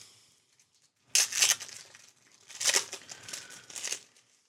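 Crinkling and tearing as a pack of Hunger Games trading cards is opened: three separate bursts of crisp wrapper rustling, fairly soft, with quiet gaps between them.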